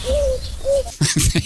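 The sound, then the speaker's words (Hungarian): Pigeon cooing: two smooth, low coos one after the other, followed by a few short, scratchy bursts. “mindjárt odaérünk majd a galambhanghoz”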